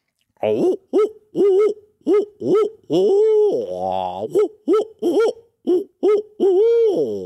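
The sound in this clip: Owl hoots imitated by a human mouth as a turkey-hunting locator call: many rhythmic hoots in quick phrases, with a longer, drawn-out and lower hoot midway, loud and alone.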